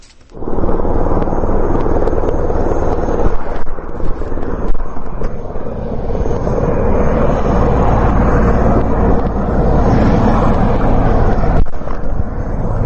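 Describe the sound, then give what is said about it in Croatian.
Steady, loud roar of military helicopters flying customs officers to the Brnjak and Jarinje border crossings in northern Kosovo. The noise starts abruptly and holds at an even level, mixed with wind buffeting. “Od ranog jutra helikopteri KFOR-a prebacuju carinike na prelaze Brnjak i Jarinje na severu Kosova.”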